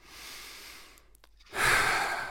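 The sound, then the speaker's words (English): A deep breath drawn slowly: a soft, airy stretch of breath, a brief near-silent pause, then a louder, fuller rush of breath that holds steady to the end. “All right, take a deep breath.”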